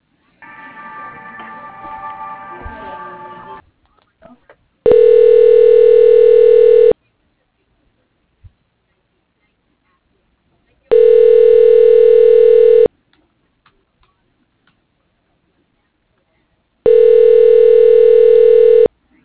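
Telephone line tone repeats three times while a call is transferred to voicemail. Each tone is a steady, even two-second hum separated by long silent gaps, after a short stretch of other sound at the start.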